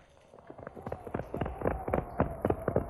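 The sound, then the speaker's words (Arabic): Cart loaded with firewood arriving in a radio drama, a steady run of rhythmic clopping beats that grows louder as it approaches, with many evenly spaced strikes. “افتحوا الطريق، إنها عربة محملة بالحطب من بلدة إبراهيم. وأنا أبوه أسوق العربة إلى حظيرة النار.”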